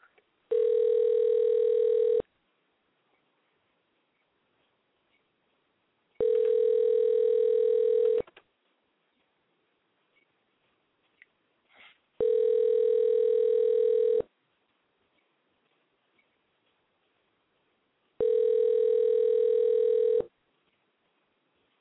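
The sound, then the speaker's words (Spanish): A telephone call ringing out after being dialed: four long, even ringback tones, each about two seconds, separated by roughly four-second gaps of near silence. “vamos a hacerle otro intento aquí al Jaguar Gutiérrez, a ver si nos contesta”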